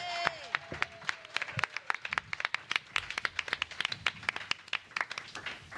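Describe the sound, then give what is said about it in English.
Clapping for a guest, an artist, cosplayer and model, from a small group: many sharp separate claps in an uneven patter, fairly quiet, with voices mixed in. “Put your hands together for LynElíz Bergs.”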